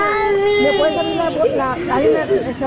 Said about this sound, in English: with the sound of children crying after being separated from their parents ringing in their ears